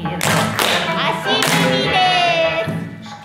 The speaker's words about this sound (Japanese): ちょちょんがちょんのところでね手拍子が入ったりとか